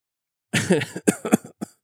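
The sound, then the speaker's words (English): A short run of coughs and throat-clearing from a woman lying on the ground after a fall: a rough, gravelly stretch followed by a few sharp, separate bursts, moderately loud with no talk. “She coughs a little bit.”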